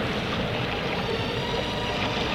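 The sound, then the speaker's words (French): Sea noise at a beach, a continuous broad wash of surf with no distinct breaking waves standing out. It stays moderately loud and even, with no voices. “Même le bruit de la mer lui fait du bien.”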